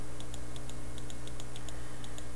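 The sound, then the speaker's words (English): Typing on a computer keyboard gives a run of many light, evenly spaced clicks, faint over a steady low hum. “That clicking you hear right there, I'm trying to set up the outro to the show.”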